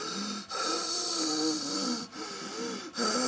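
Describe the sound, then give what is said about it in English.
Wheezing breath from someone struggling to breathe: harsh, rasping airflow with thin whistling tones runs almost continuously, broken by a few brief pauses between breaths. “I'm wheezing quite a lot. Wheezing. And that means you're having problems breathing. And it makes a sound when you breathe.”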